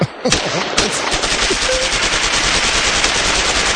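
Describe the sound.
Gunfire sound effect: rapid automatic fire that rattles in a dense, unbroken stream of loud cracks after a brief opening burst, running to the end with no pause.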